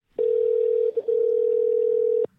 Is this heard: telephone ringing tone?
yes